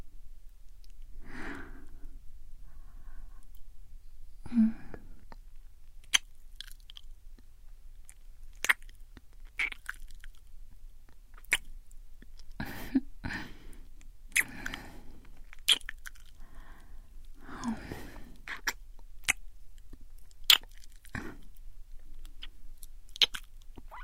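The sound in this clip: Chewing and biting into food to test its texture: many crisp, crunchy bites and moist mouth sounds in an irregular rhythm, with no talking.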